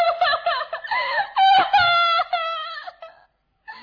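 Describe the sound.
A woman's high, wavering wail and sobbing from a crying princess character in a fairy-tale drama: loud, quavering sustained cries broken by short catches of breath, then a brief pause and a final whimper.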